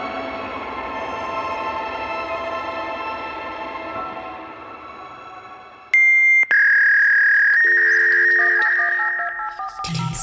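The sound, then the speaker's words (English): Telephone line tones follow several seconds of dense rumbling noise: a loud, steady high tone breaks off briefly, then resumes and shifts into other steady tones before ending abruptly. “The number you have dialed has been changed.”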